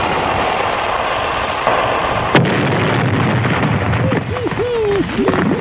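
A weapon-firing sound effect: a steady loud roar, then a sharp blast near the middle, followed by rumbling noise and a few wavering, whistle-like tones near the end.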